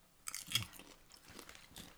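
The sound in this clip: Crunchy chewing of cinnamon sugar Flamin' Hot popcorn, with a few crisp bites and softer chomping in between. The crunching is quiet and no one talks over it.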